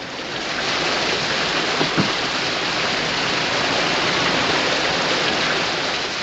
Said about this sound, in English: A sudden cascade of water washes away the blanket. Lawrence hangs the work light above the gushing stream of water.